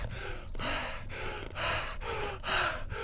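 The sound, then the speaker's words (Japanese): Heavy, rapid breathing from someone out of breath after road cycling: a steady run of quick, loud gasping inhales and exhales in an even rhythm, with no talking. “皆さん、大した出力じゃないのに、息が上がった申し訳ない。”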